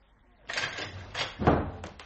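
Door being opened in a dramatized scene: a few rattling knocks and clunks, growing denser toward a heavier thud, over quiet background.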